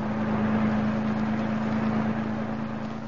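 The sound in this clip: Steady engine hum of a car driving upstate, a constant low drone holding at an even level throughout, with no voices.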